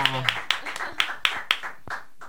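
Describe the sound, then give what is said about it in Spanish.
Light studio applause from a few people, heard as sparse, separate claps in a loose rhythm after a short bit of voice at the start, faint and thinning toward the end. “Un aplauso”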